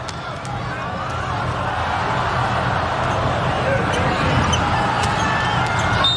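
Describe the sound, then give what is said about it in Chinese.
Volleyball bounced before a serve in a match against Japan: a few sharp pats over steady crowd noise, with commentary talk throughout. “17-10，王鹤斌来发球。”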